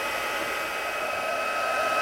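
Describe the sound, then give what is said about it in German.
Hair dryer blowing on small bags: a steady, airy whoosh that runs continuously and swells slightly toward the end, with no voices. “dann föhne ich dir mal deine Tütchen hier, wa?”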